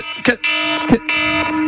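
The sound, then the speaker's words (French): An alarm clock rings with a steady electronic buzz, broken by two short gaps. “Ah oui, c'est ça mon réveil le matin.”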